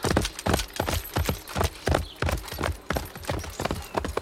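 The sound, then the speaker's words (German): A spurred horse gallops off into a dark forest, its hooves pounding in many loud, rhythmic clusters that keep an even pace from start to finish, with no voices. “Meo stieg auf, zog vor der Fee den Hut und gab dem Pferd die Sporen. Es sprengte in den bekannten finsteren Wald hinein.”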